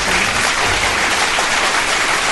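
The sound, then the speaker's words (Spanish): Applause rendered as a loud, dense, unbroken roar of many hands clapping, steady in level for its whole length with no voices. “Un fuerte aplauso.”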